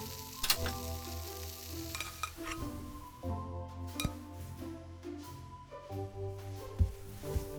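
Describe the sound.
Bacon and eggs fry in a pan with a steady, crackling sizzle and a few faint clinks of utensils now and then.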